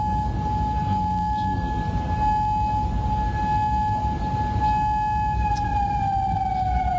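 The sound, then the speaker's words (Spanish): Air raid siren sounding at night in Kuwait, a steady, sustained wailing tone that holds its pitch before sagging slightly at the end, over a constant low rumble of background noise. “A esta hora se escuchan sirenas antiaéreas de alerta de ataques en Bahrein y en Kuwait.”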